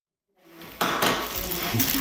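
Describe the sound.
Pans and cutlery clatter as a burger cooks. A brief silence gives way to a rushing metallic clatter that jumps louder partway through and stays steady to the end.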